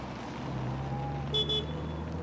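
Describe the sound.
A car engine hums low and steady as the car is put in gear and driven off, with two short, high horn-like toots midway.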